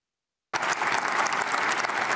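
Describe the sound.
Audience applause for a speech, bursting in suddenly after half a second of silence and continuing as a dense, steady clatter of many hands clapping at an even, loud level to the end.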